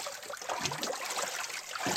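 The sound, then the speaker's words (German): Water splashing and sloshing as people swim, a continuous, fairly busy wash of small splashes and trickles with no voices. “Ein bisschen nass, dieser Salon. Ja. Los, schwimmt weiter.”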